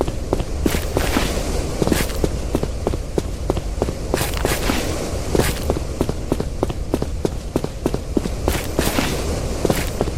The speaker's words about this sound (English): So, once again, I'm running. I can't really stop myself.